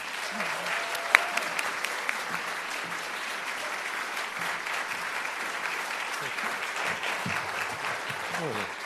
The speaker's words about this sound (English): Would everybody please put their hands together and welcome Matthew Dix.